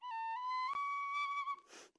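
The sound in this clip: A tin whistle plays a few bright, sustained notes, clear and fairly loud on its own, before the melody stops and a breathy hiss trails off.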